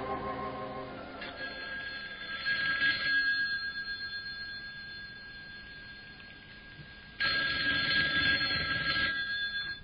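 A telephone rings unanswered inside a modest home. The bright, metallic rings come in bursts separated by a quieter stretch, and no one speaks.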